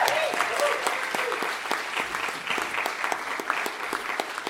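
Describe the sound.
Audience applause greeting a speaker called to the stage, with sharp individual claps standing out from a fairly loud, continuous patter that eases slightly toward the end.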